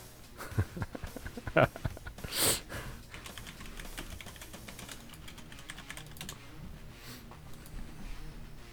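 Computer keyboard keys click as a search is typed into the YouTube search bar: a brisk, irregular burst of keystrokes early on, then fainter scattered taps.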